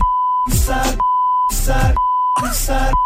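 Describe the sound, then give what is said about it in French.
A censorship beep over song lyrics: a steady, piercing tone keeps cutting in, alternating with short bursts of sung vocals and music, several times in a regular pattern. “attention, on a bipé”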